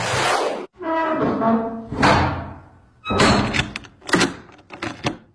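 A bedroom door is shut and locked at home: a drawn-out, groaning creak gives way to a few sharp clunks and clicks, fairly loud, with no voices.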